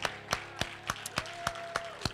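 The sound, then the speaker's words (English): Church audience clapping in unison, about eight sharp, evenly spaced claps in a brisk steady rhythm, with a faint sustained tone beneath. “And while you're yet still clapping, help me praise God for our online viewers that's watching Hope at Home this morning.”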